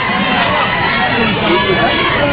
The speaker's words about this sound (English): Now they're going to cheer on our fourth competitor making her climb.